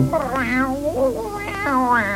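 A cat meows a few times, giving drawn-out, tonal mews that bend up and down in pitch. The calls are clear, fairly loud and alone, with no other sound.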